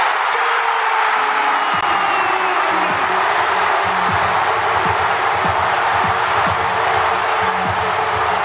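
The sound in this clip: A baseball crowd roars and cheers for a Cubs grand slam, a loud, sustained wall of voices with whoops and scattered claps that stays dense and level throughout.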